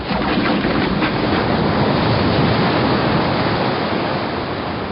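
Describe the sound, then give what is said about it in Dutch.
A large wave of water surges in suddenly from a side pipe with a loud, dense rushing roar that holds steady throughout, heard alone. “De rest van de geleerde woorden ging ten onder in het geraas van een grote watergolf die plotseling uit de zijbuis naar binnen spoelde.”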